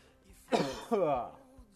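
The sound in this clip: A throat clearing and cough from someone with slight throat irritation: two short, rough voiced bursts close together, fairly loud against a quiet background, with no talk around them.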